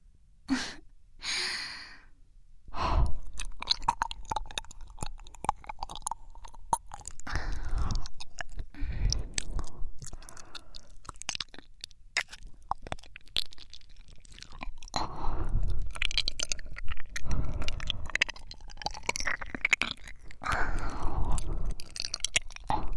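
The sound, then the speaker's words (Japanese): Wet ASMR mouth sounds of a tongue gently rubbing against an ear: soft licks, smacks and slurps, broken by breathy sighs and inhales. “私の舌があなたの耳に優しく擦れるのわかるかしら。”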